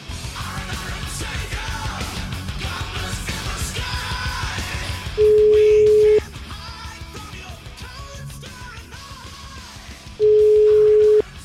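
A telephone ringback tone sounds while a call is being placed: two steady, mid-pitched tone bursts of about a second each, roughly five seconds apart, standing out loudly over a busy, noisy background.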